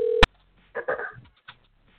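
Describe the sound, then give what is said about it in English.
Telephone tone from a call being dialed, a steady mid-pitched tone that cuts off with a sharp click, followed by a brief muffled burst of sound and then near silence. “Let's see what he's got going. I'm going to dial him in.”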